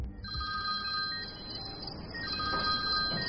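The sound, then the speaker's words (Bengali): A telephone ringing with a steady, high electronic tone that holds throughout over a low rumbling background. “একদিন সন্ধ্যের দিকে ম্যাথিউর phone আসে”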